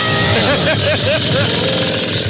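A chainsaw engine runs loudly and continuously, a dense, steady mechanical drone with no break in the sound.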